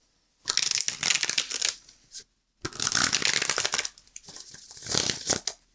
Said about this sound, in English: But first, we're going to do what we do, pull a tarot card, talk about it at the end.